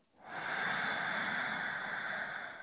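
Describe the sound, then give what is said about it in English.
A deep cleansing inhale, taken slowly to fill the lungs, forms one long, loud, steady breathy rush that swells quickly and holds for over two seconds before easing slightly, with no talking. “let's take a cleansing breath, filling all the way up. Inhale.”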